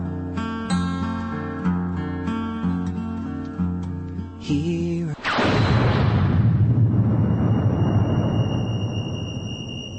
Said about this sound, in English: Release the bomb. Releasing bomb.